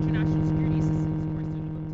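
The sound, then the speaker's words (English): Electronic interference from bomb jammers on ISAF military vehicles in Kabul: a steady, buzzing hum with a strong low drone and layered overtones, continuous and unchanging for the whole stretch. “She told us that noise was from jammers on the vehicles of the International Security Assistance Force. They had just left a BBC interview, and they used these jammers to block remote-controlled bombs.”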